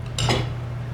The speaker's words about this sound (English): Trying to cut with two spoons.